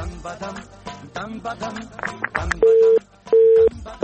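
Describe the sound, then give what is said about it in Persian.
A busy signal follows a caller's dropped line on a phone-in program, with talk first and then two steady mid-pitched beeps separated by a short silence, a third just beginning. “خب تماس بانو زینت وفا بود، فکر میکنم قطع شد، امیدوارم دوباره تماس بگیرن”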